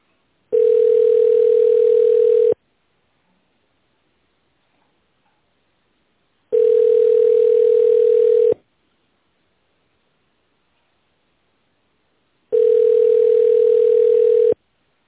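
Telephone ringback tone on an unanswered call: three steady, mid-pitched tones, each about two seconds long, separated by roughly four-second silences, with no voice answering.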